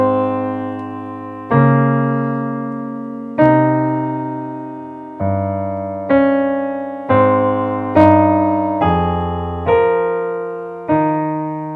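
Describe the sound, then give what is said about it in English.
Music with a melody and a bass line played together, the bass working as a second, counter melody. A slow series of sustained notes, each sounding at once and then fading, steps along steadily, with low bass tones moving beneath the upper line. “Together, the melody and the bass line sound something like this.”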